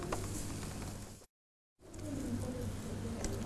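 Sand is poured into a container, a steady, faint granular hiss running in two stretches separated by a brief silence.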